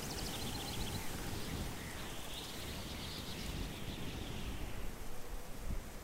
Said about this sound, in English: What a wind in these trees, boy, I tell you.